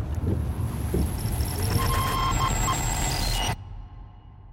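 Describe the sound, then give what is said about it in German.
Steady low rumble of road and engine noise inside a moving car, broad and constant with a thin whine above, then dropping abruptly to a quieter hum near the end. “Wir sind im Auto.”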